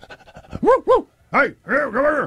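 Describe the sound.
A police dog brought in during a manhunt pants in quick, short breaths for about half a second, then several louder tonal, voiced sounds follow in separate bursts.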